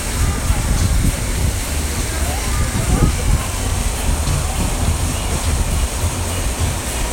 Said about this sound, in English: So now we're even closer to the Serenity Pool, closer to the waterfall.